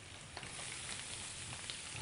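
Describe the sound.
Food sizzling as it fries in a pan, just before zucchini is added: a faint, steady, crackling hiss that stays even throughout, with no voices.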